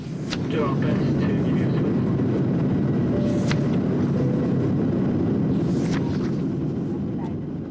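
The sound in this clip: Airplane taking off: a loud, steady engine roar and broad rumble that holds without a break throughout.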